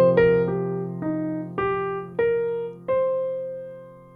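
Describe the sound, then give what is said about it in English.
Six ringing notes fall and then climb in an eighth-note arpeggio over a steady low sustained tone, each note struck clearly and left to fade, with no talk. “And descending, ascending.”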